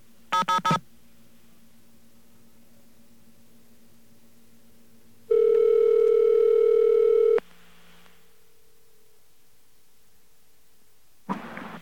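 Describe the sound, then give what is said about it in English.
Telephone dialing on a staticky line: a short burst of keypad tones, a long stretch of faint hum, then a loud, steady dial tone for about two seconds, and a final burst of keypad tones. “Now, let's dial away. We're going to try the Alliance number.”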